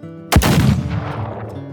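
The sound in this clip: A single loud pistol gunshot fired into a dying man's chest: one sharp, booming crack followed by a long, slowly fading rumble over a low, steady drone.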